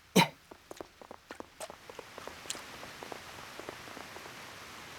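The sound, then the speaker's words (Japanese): Rain beginning to fall, starting with one sharp tap followed by faint, scattered drops that grow gradually denser and steadier. “あ、雨だ。大変だ。このままではあなたが濡れてしまう。”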